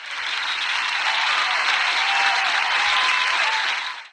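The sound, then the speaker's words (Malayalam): Sustained applause from a show audience greeting a guest and his interviewer. The clapping is a dense, even wash that holds steady for about four seconds, then stops abruptly. “Give them a big round of applause.”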